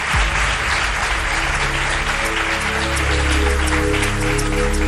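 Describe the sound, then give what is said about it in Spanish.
Audience applause at a live evening event, a dense, continuous clapping from many hands that stays loud and steady for about five seconds. “Juan Ignacio Cuesta, que después además os cantará y tendréis ocasión de aplaudirle más, si se lo merece, por supuesto.”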